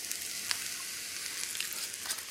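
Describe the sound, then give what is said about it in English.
Fried rice sizzling in a hot pan as low-sodium soy sauce is drizzled in: a faint, continuous high hiss with a few small pops and crackles, no voices. “I might hit it with a little bit more low-sodium soy sauce, just another quick drizzle”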